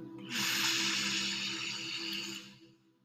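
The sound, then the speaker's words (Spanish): A deep, slow exhale during a guided relaxation exercise: a breathy rush of air lasting over two seconds that swells quickly, holds steady and fades at the end, with no talking. “Respite nuevamente. Exhala profundamente.”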